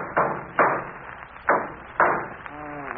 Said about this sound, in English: Let me try something else here with this hammer.